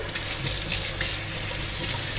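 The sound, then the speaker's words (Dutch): Hot tap water runs steadily while hands are washed under it, a continuous, even rushing and splashing that holds at one level throughout with no talking. “Oké, ik ga nu mijn handen wassen. Ah, hij is heet.”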